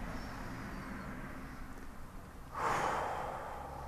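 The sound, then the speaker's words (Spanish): A deep breath taken in through the nose and released through the mouth during a guided meditation. A soft, airy hiss runs throughout and swells into a louder, breathier rush after the midpoint, holding to the end. “inhala profundo, inhala por tu nariz, exhala por tu boca.”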